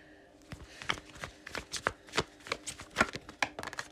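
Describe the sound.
Tarot cards being drawn one after another from the deck and laid out: many crisp, papery snaps and flicks in an irregular rhythm, fairly clear against a quiet background, with no voices.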